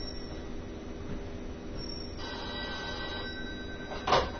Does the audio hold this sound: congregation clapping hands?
no